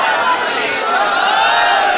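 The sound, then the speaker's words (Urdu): A crowd chants a slogan at a Ghadir celebration, a loud, sustained mass of voices in unison that holds without a break for about two seconds. “نہ, نعرے کا یہ ادب نہیں ہے, جشن غدیر کا نعرہ ایسے نہیں ہونا چاہیے.”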